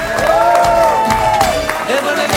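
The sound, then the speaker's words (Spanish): Crowd cheering and applause greeting the Pope on his arrival in Barcelona, a loud dense wash of clapping with whoops rising and falling above it. “¡Un aplauso para el Papa!”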